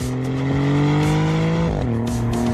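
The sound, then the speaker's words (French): A Maserati GranTurismo Trofeo coupé's twin-turbo V6 engine runs with a loud, steady, rich drone. Its pitch drops sharply about two-thirds of the way through, then holds at the lower note. “C'est vrai qu'il sonne bien ce V6.”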